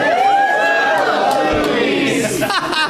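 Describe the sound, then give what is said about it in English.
A live audience in a comic store's back showroom cheers loudly and without a break, a dense wash of voices with whoops rising through it. “Some of you don't even know what's happening. Just cheered.”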